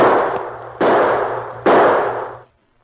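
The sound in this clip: Gunshots, three sharp loud bursts about a second apart, each trailing off in a long decaying tail before silence falls.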